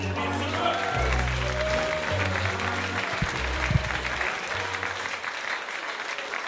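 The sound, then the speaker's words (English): Applause from a comedy-night audience as the next act is introduced: sustained, fairly loud clapping over low, steady tones, with a few shouts breaking through. “Keep that applause going for the fourth act.”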